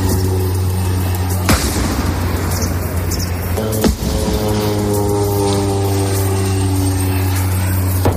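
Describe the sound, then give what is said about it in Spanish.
Two heavy, sharp booms from Israeli bombs exploding near the Gaza border, in the north of the Strip, cut through a constant droning engine hum that carries steady tonal harmonics throughout. “así suenan las bombas israelíes desde la frontera con Gaza”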